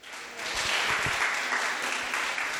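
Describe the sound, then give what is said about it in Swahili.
Church audience clapping for Jesus during a Swahili-language service starts quietly and swells within half a second into loud, dense applause that holds steady to the end. “Basi mpigie Yesu makofi.”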